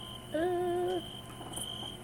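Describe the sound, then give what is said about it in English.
Crickets chirp in a steady, high, continuous trill through the whole stretch, fairly faint, with a short lower tonal sound briefly rising above them near the start. “I like the crickets.”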